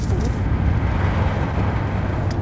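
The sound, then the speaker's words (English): A car drives on a road trip through the Irish Midlands toward County Offaly. A steady, dense low rumble of road and engine noise runs unbroken throughout, with no talk. “So the three of us, we jumped in the car for a bit of a road trip to go to County Offaly in the Irish Midlands.”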